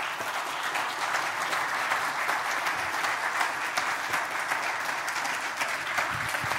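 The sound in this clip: A church audience applauds as a couple comes up to the front: a continuous, even patter of many hands clapping at moderate loudness, unbroken from start to finish.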